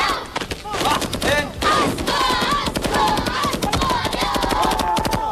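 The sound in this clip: Automatic gunfire sounds in rapid bursts, with many sharp cracks packed closely together throughout, mixed with loud shouting voices.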